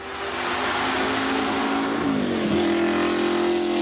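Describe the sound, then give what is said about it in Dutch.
Six-cylinder hybrid race car engines drone steadily and loudly, a sustained whining tone that dips in pitch partway through and then settles at a new level, with no voices. “Het geluid van de zescilinder hybride motoren klinkt bescheiden.”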